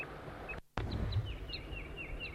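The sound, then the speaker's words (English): Calls of a wild crossbill: a series of short, high chirping notes, several with a quick downward sweep, coming in quicker succession later over a low background rumble. “There's a wild crossbill here.”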